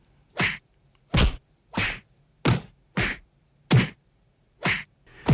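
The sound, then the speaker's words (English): Fight sound effects: a rapid series of punchy, exaggerated whacks and thwacks like staged punches in a brutal brawl, evenly spaced and loud, each with a short swishing attack and no voices. “And all I had to do was just basically go and just Google fight noise. So I'm just going to play you a little bit of what this brutal fight is supposed to sound like, according to the people at You Got Served.”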